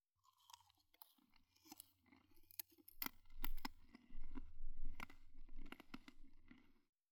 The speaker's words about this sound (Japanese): 次は、こっちのリンゴ飴。シャリシャリしてて美味しいよ。